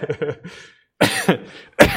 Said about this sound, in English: I've got this persistent little cough that just won't go away.